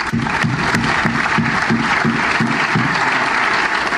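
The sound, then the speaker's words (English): Loud, steady applause from an audience at LSE welcoming a guest speaker, dense clapping holding at an even level throughout without voices. “please join with me in giving him a very warm LSE welcome”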